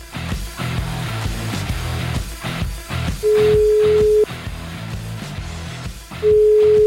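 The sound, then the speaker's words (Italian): Telephone tones sound while someone places a call: two long, steady, mid-pitched beeps about a second long, separated by a pause and heard over a dense, loud background. “Chiamiamo Magalli!”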